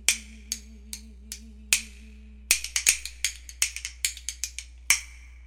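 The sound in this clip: Sharp, dry mechanical clicks of a clock, a few evenly spaced ticks at first, then a quicker, irregular run of many crisp clicks.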